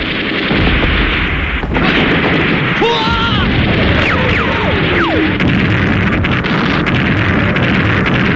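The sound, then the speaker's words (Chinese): Artillery shells explode in a battle as enemy shelling strikes a village, a loud, dense and continuous roar of blasts and gunfire-like bursts with no quiet gaps. “大炮！大炮啊！金台村，向金台村大炮啊！”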